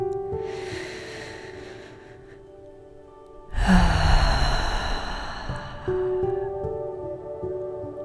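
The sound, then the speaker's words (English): A person takes a deep breath: a soft, airy inhale, then a louder, rushing exhale that lingers, all over steady background music. “Sit up straight. Take a deep breath.”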